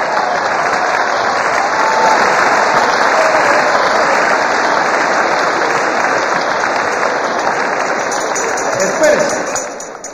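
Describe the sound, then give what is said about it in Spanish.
Audience applause rising into a dense, steady wash of clapping that holds for about ten seconds before tapering off at the end, with no words spoken over it. “Abreviemos el aplauso y el comentario porque nos faltan más salidas de emergencia.”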